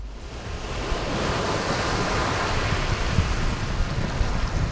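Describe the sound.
Waves washing ashore at a beach, heard as a broad, steady rushing noise with a low rumble beneath it. No voices.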